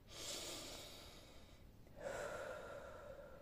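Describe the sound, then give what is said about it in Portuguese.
A deep breath drawn in and then let out during a guided prayer: two long, soft, airy phases separated by a short pause, heard alone without talk. “Dá aquele respiro maravilhoso. Inspira e respira.”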